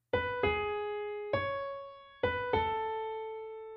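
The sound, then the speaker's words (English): A main theme motif played in a major key on a piano-like instrument: five bright, ringing notes that decay slowly, grouped as a quick pair, a single note, then another quick pair, heard alone. “we get a melodic shape in the major key that sounds like this.”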